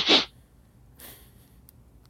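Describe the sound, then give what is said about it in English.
A voice imitates an animal sniffing at someone's ears, with one sharp, loud nasal snort-like burst followed by a much fainter, breathy second sniff. “Paultin walks up to him and just, like, glares him, like, right in his face. and then just kind of like sniffs him a little. It's like behind his ears”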